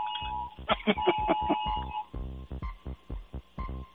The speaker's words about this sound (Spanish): Es que hoy sonó la, la chichaza antes de tiempo. Señores, tenemos que irnos, ya que hasta la chicharra nos está diciendo que los vayamos.